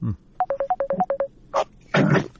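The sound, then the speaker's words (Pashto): A Skype call ringtone plays a quick run of short, clipped beeping tones alternating between two close pitches, followed by a couple of broader, noisy bursts. “د سکایپ له طریقه یو اوریدونکی دی، دا زنګ هم د سکایپ و خبرې وکړي.”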